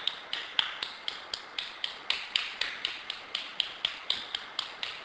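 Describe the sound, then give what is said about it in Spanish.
Flamenco palmas: crisp handclaps mark a fast amalgam rhythm in evenly spaced beats, with some claps louder as accents. The clapping is heard alone. “Ellos van marcando palmas. Según donde dé el acento.”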